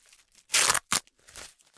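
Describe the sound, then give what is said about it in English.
Tape is pulled off a wrapped present in a few short ripping bursts, the first the longest and loudest, followed by a quicker tear and softer crackly pulls. “This one's got some tape on it. I'm untaping it.”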